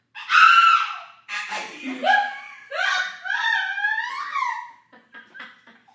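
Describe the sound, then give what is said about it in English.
A human voice imitates an eagle's screech, producing a string of shrill, wavering cries that sound more like a screaming child, then trails off into a few faint short sounds. “There is no eagle in that. That just sounds like a child screaming in a nest.”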